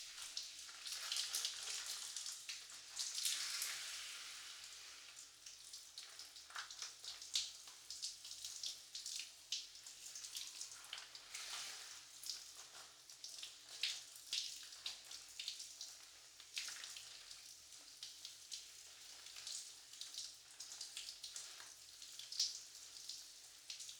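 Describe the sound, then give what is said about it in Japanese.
Shower water rinses shampoo out of hair: a soft, continuous hiss of spray with gently fluctuating splashes, quiet and steady throughout. “シャワーですすぎ洗いをしていきますね。目に泡が入らないように、しっかりと閉じていてください。それでは、いきますね。”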